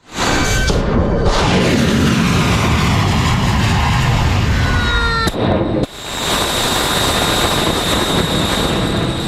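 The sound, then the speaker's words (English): Explosions from US military strikes on Iranian targets aimed at attack capabilities against commercial shipping: a loud, continuous roar of blasts and rumble, with a brief whistling tone near the middle and an abrupt break before the roar resumes. “Footage from US Central Command, which said it launched 5 hours of strikes aimed at weakening Iran's ability to attack commercial shipping.”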